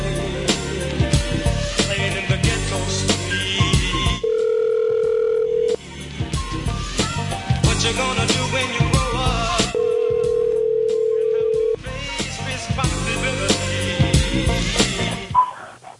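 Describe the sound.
Telephone ringing tones on an outgoing call, two steady electronic tones of about a second and a half each, separated and surrounded by loud music.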